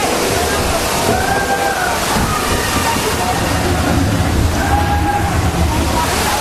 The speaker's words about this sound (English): Oh, and now we're going to tip back. All the water's going to go back.